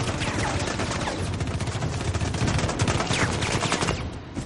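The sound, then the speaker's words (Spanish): Gunfire from a Russian bodyguard, with bullets deflected by a shield: loud, dense rapid-fire shots run without a break through the whole stretch, a continuous crackling barrage. “repele las balas del escolta ruso con el escudo.”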